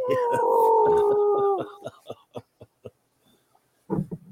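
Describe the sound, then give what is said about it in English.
A wolf howl made with a handheld wolf call: one sustained tonal howl of about a second and a half that dips slightly at the end, followed by a few short, sharp pulses and a brief low sound. “Was that a wolf? Yeah. That was a wolf call, and he got an owl to respond back to it.”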